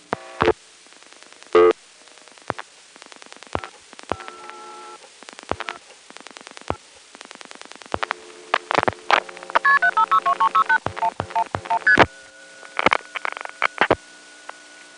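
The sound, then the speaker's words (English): Telephone line switching sounds as a digit 1 is pulsed in repeatedly: many sharp dial clicks scattered throughout, steady signalling tones in bursts, and a rapid run of stepped tone pulses near the end. “I'm going to pulse in a 1, which it'll have to stop what it's doing, notice that that's a 1, send a 1 start.”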